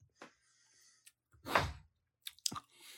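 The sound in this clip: Chewing chokeberries, a hard-to-eat fruit: sparse, faint wet mouth sounds and a breathy burst, separated by quiet gaps.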